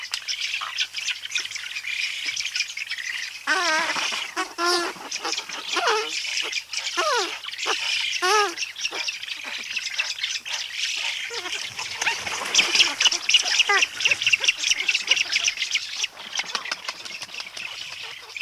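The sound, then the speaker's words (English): An adult Eurasian spoonbill gives trumpeting calls while its chicks beg in the nest with high-pitched trills, producing a busy, continuous stream of many overlapping squawks and chirping calls. “here's the sound of an adult Eurasian spoonbill and its chicks in the nest. The adult is making some trumpeting calls, while the begging babies are the ones making the high-pitched trilling calls.”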